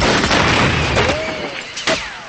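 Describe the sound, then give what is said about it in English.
Rifle fire as soldiers shoot back during a hillside skirmish: a couple of sharp, loud cracks burst out of a dense, noisy backdrop threaded with thin whistling tones. “They duck, and the soldiers return fire.”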